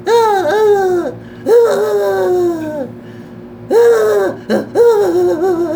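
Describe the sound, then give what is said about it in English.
A human voice imitates the lonely whining and crying of an animal penned away from its people: four drawn-out, high, wavering whines, each sliding downward in pitch, heard alone with short pauses between. “he would make this noise. He would like whine and cry. He'd go,”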